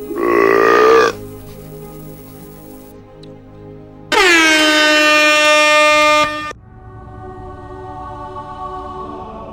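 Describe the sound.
Air horn blasts signalling shots in a Centurion drinking game: two loud, brassy, sustained honks, the first about a second long and the second about two seconds, separated by a quieter gap.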